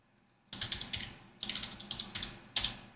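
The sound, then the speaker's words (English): Typing on a computer keyboard comes in three quick bursts of sharp, clicky keystrokes separated by short pauses, fairly faint, with no one talking. “Sorry, you're hearing me type.”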